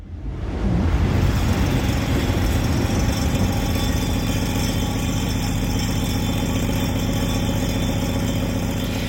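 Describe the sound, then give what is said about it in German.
A train roaring past, played back in a table-based sound art installation: a loud, continuous rumbling drone with humming tones, rising quickly at the start and then holding steady. “Peppernder Tisch heißt das Ganze und ich glaube, wir haben da die Bahn, die da vorbei brettert, gehört.”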